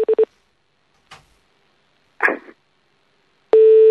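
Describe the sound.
Telephone tones while calling a number back: a few short beeps, then a couple of soft clicks, and finally a steady, continuous line tone that holds to the end.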